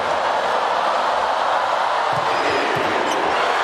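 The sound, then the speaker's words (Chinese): A volleyball serve struck for an ace, clocked at over 100 km/h in a match involving China, heard as two dull thumps over steady crowd noise. “巴尔加斯发球直接得分，第一次发球时速超过了100”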